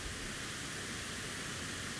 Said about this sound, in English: Ahead of me, about 100 yards or so, is a cave from which all this water is coming.